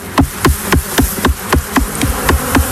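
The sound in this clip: A male honeybee drone buzzing, heard as a rapid, regular series of loud, pulsing buzz bursts that repeat at an even rhythm throughout, with no talk.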